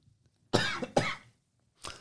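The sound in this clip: Three coughs from a person, loud against near silence: two close together, then a third after a pause.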